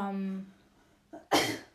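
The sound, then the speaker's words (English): Coughing from something caught in the throat: after a voice trails off, a short cough comes, then a louder, harsher one. “I had something in my throat. Oh, I'm sorry. I usually, like, choke.”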